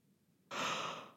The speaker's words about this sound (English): sorry, podcast yawn